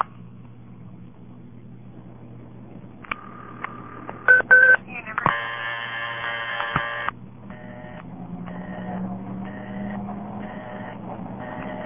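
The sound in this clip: Touch-tone dialing on a payphone: a few short beeps and a longer sustained tone, then a run of evenly spaced tones, all over a low, steady hum with occasional clicks.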